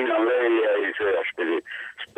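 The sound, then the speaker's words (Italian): An amplified radio picked up over a phone line with echo, its voice squeezed into a thin, tinny band and running in steady bursts with short gaps. “No, sento solo una radio amplificata direi dall'eco, ma Alessio non c'è”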